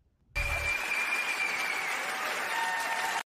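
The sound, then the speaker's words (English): Steady audience applause honoring parents at an event. It breaks out after a brief silence and stays at an even, dense level to the end. “And parents, I must give you all a round of applause”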